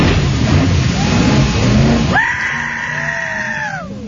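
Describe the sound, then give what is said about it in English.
A boat jumping Lundbreck Falls: a loud rushing roar gives way abruptly to a high, sustained whine that drifts slightly down in pitch before cutting off. “And I'll play the audio for you. It doesn't do it justice. Just look up Lundbreck Falls boat jumping buffoon or something. And but yeah, here it comes. He's about to.”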